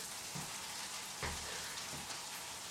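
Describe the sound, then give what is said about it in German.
Spätzle frying in butter in a frying pan make a steady, dense crackling sizzle throughout, with a few faint soft knocks beneath it. “Dann die Bratpfanne. Jetzt geben wir denen noch ein bisschen Farbe.”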